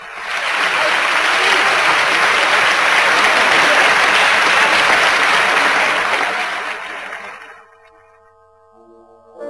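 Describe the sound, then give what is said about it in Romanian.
Enthusiastic applause from an audience in Paris cheering a singer, dense and sustained for about seven seconds before quickly fading away. “Ce triumf, ce triumf, ce deliru! Vieni, vieni, îmi aclamă publicul! Publicul din Paris?”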